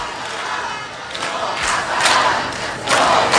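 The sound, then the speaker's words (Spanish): Crowd cheering and chanting to welcome an arriving person, a loud, dense roar of many voices that swells in several surges and stays sustained throughout. “Alguien llega y le están jaleando. Es lo único que puedo decirte. En cuanto averigüe de quién se trata, os lo cuento. Parece que es alguien que es muy bienvenido.”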